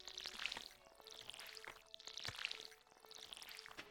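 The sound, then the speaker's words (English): Watering-can pouring sound effect from a farming video game as crops are watered, with a few splashy, bright pouring bursts in a repeating pattern, moderately loud with no talking. “All right. That's our plants watered for the day.”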